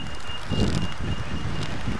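Electronic beeping from a pedestrian crossing signal on a busy street: a few repeated high, steady tones over a constant low rumble of traffic.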